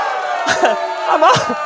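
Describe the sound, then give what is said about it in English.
Audience booing the New York Yankees: a sustained crowd jeer of many voices that swells twice, loud and continuous. “Wait, people are booing the Yankees?”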